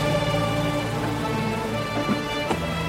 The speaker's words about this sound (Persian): هوا بارونیه.